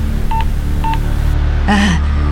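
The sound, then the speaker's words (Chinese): A telephone number is dialed with two short keypad tones about half a second apart, each a crisp paired beep over a steady low hum, followed by a brief louder tonal burst. “但后来想想不对，又拨了一通电话向儿子瑞金确认。”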